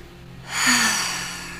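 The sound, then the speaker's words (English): A single long, breathy open-mouth exhale during a stress-release meditation begins about a third of the way in, swells quickly, then slowly fades as a soft airy rush. “as you can see, or hear, I'm doing open mouth exhales.”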